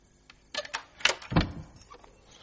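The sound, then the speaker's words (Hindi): A door being closed: a short, fairly faint run of clunks and scrapes, with the heaviest thud landing toward the end. “Dhoni अंदर आया, उसने दरवाजा बंद किया।”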